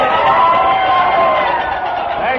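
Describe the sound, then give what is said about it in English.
An audience applauds and cheers to welcome a featured country singer and guitar player from the Ernest Tubb Show of the Grand Ole Opry in Nashville, Tennessee, making a loud, steady, unbroken wash of crowd noise. “So let's give a great big welcome, a big hand to Bill Drake.”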